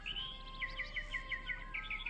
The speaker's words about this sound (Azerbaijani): Bir quş oxudu.